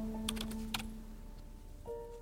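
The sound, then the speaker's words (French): Typing on a computer keyboard while entering a search: a few sharp, bright key clicks, mostly early on, over a steady low electrical hum, with no voices. “Je tape Sugar Daddy sur Google.”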